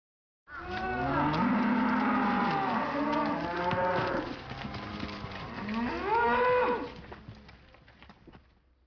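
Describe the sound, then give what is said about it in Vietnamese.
A cow moos in long, drawn-out calls whose pitch bends and slides. The lowing is loud and continuous for several seconds, with a brief dip midway, and no voices are heard. “Đây là tiếng bò kêu, trong tiếng Nhật được diễn tả bằng từ Momo.”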